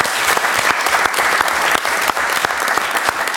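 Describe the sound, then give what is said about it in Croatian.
Government members at a cabinet session applaud the national football team with dense, loud, continuous clapping that stays steady from start to finish. “ja mislim da reprezentacija zaslužuje jedan aplauz cijele vlade.”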